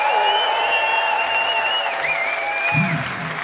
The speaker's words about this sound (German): Macht mal ein bisschen Lärm für Sophie an den Keys und an den Vocals.